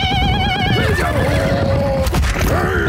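A horse neighs in a loud, wavering whinny that slides downward in pitch. It is linked to horsemen on the Mongolian steppes.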